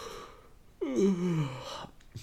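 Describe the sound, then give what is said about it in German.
A person voices a long, drawn-out yawn for a sleepy little winter troll who has just stretched: one groaning vocal tone, about a second long, that slides downward in pitch and then fades, heard alone. “Nachdem er sich ausgiebig gereckt hatte, blickte er gähnend hinter sich.”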